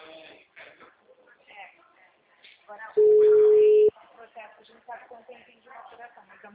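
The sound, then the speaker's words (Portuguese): A WhatsApp call gives a single loud, steady ringing tone lasting about a second, set between stretches of people talking. “Não recebe mensagem no WhatsApp, só que ligação chama. No WhatsApp chama? Oh, aqui chama.”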